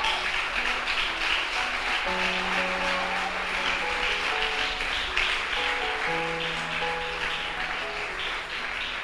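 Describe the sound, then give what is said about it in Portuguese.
A church audience applauds in a steady, continuous wash of clapping that lasts throughout, layered over sustained musical tones and held chords. “Então aplauda Messias por causa disso.”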